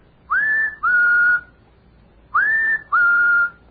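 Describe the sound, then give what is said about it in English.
A man whistles an imitation of a bird's call in two matching phrases. Each phrase is a clear upswept note followed by a slightly lower held tone, with a pause before the second pair. “I don't know what he's so happy about, but he whistles like this.”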